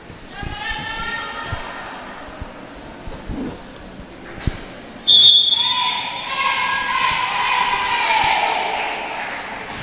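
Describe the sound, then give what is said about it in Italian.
A short, shrill referee's whistle blows once midway to start a volleyball match. Crowd noise swells after it, and a commentator talks throughout. “Inizia ora la partita dunque dal fischio dell'arbitro.”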